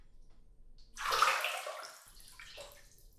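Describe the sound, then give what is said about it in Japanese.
Hot water poured over a person's calves: one splashing pour that swells for about a second, then tapers into lighter, softer trickling and dribbles. “ここからはふくらはぎにもお湯をかけていきますね。”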